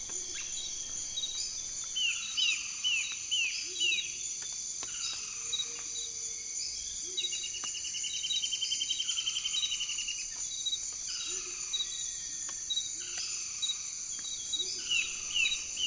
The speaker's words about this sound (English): I've noticed that the tropics are very loud. If we listen to the Amazon, for example.